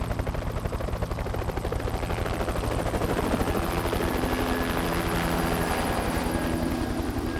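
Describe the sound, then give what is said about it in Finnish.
A big yellow helicopter makes a loud, steady rotor chop that runs unbroken from start to end, a fast rhythmic thudding with no voices. “Mies ja nainen auttoivat meidät isoon keltaiseen helikopteriin.”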